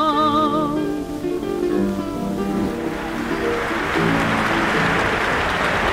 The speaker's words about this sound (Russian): Аплодисменты, которые вы сейчас слышали, прозвучали во время выступления выдающейся исполнительницы старинных русских романсов Тамары Царетели в Московском Центральном Доме работников искусств.